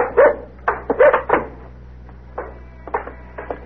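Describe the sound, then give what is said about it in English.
A dog barks: a quick run of loud, sharp barks, then after a short pause a few softer, quieter barks. “Thought I'd forgot you, boy, huh? He's a nice dog.”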